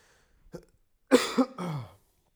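A person coughs, a cough that is not dry: after a faint short sound, one loud, harsh cough of two quick bursts trails into a raspy tail.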